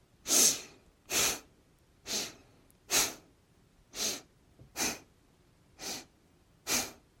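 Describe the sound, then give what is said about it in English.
Steady breathing in and out during a guided relaxation exercise: eight strong, breathy rushes of air at an even, unhurried pace, each lasting about half a second, with near silence between them. “Up, down. Breathe in, out.”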